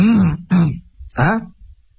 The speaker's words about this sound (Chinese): 这句话一出口，就听宋江在旁边咳嗽了一声。